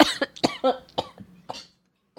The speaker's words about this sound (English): I tested negative for COVID, but I still have this fucking cough a month later.